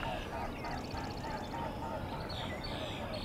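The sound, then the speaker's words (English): Wingbeats of a pair of mute swans flying by make a rhythmic, pulsing whistle. The throbbing strokes rise briefly over a steady outdoor rush of background noise. “A pair of mute swans flying by. Not so mute. Yeah, that sound is their wings.”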